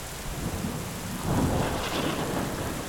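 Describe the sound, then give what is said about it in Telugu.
A loud, low thunderclap booms in the distance, swelling after about a second into a rolling rumble over a steady wash of rain. “ఆమె ఏదో చెప్పబోతూ ఉండగా దూరంగా పిడుగుపడ్డట్టు పెద్దగా ఉరిమింది”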